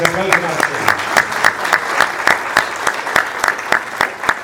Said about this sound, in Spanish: Un aplauso.